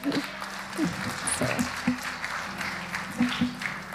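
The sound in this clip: Church audience applauding to welcome guests: a steady wash of clapping holds for the whole four seconds, with a voice briefly audible over it.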